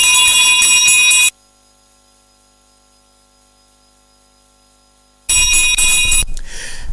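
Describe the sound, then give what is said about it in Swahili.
A bell rung twice to mark a quiz round: two loud, bright rings with sustained high overtones, each lasting about a second, separated by several seconds of silence. “Ngoja niwape kengele 2 kwanza wasikilizaji wote. Kengele ya kwanza hiyo. Hii ni kengele ya pili, taongezea kengele moja.”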